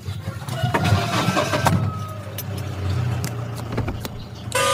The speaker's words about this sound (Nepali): अब zip start गर